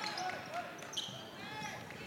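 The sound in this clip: Basketball dribbling during a women's basketball game: a few quick bounces sound beneath a commentator's running play-by-play.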